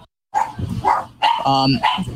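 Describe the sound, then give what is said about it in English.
Dogs barking: a string of loud, sharp barks in quick succession, with a brief higher-pitched whine among them. “Come on, oh my goodness, the dogs! The dogs are at it again.”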